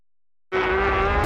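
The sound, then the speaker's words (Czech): Racing motorcycles from a world-championship series overtaking, an advert sound effect: a loud engine roar bursts in abruptly after silence and holds as a high, steady whining scream to the end. “Šílená předjíždění, epické souboje, kolekce MotoGP, špičkové stroje světového šampionátu, Rossi, Marquez, Bezzeki.”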